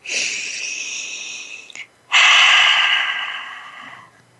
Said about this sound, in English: So let's take a moment and breathe together.